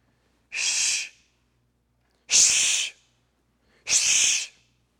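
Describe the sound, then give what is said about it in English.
A person shushing a newcomer on a hunting walk in the woods to keep quiet: three breathy, hissing "shh" bursts, each under a second long, separated by short silences. “That's you telling a new person to be quiet because they don't know to be quiet.”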